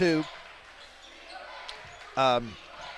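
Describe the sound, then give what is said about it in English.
A basketball is dribbled on a gym court during a game, its bounces faint beneath a commentator's voice. “Kurt dribbles up to the top, over to Schlegel on the right.”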